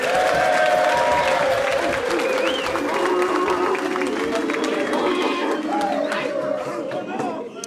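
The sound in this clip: Loud, sustained applause and a few cheers from a live studio audience on a university campus in Fresno, California, with a football team present, holding a full, even wash of clapping from start to finish.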